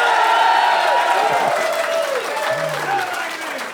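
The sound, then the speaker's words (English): An audience claps in a dense, steady wash with voices calling out over it, easing slightly toward the end. “Now, fellas, my boys, you clap if you thought it was her fault when you broke up.”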